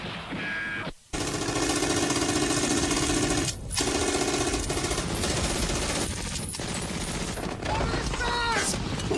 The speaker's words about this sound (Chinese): 它的奥秘在于每挺 MG 三四机枪都同时配备两根枪管，一根打热了可以换上另一根继续打。持续射击的能力不亚于重机枪。